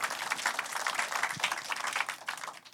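Congregation clapping hands in praise during a church service, a fairly faint, continuous patter of many hands that keeps up an even, slightly fluttering rhythm throughout.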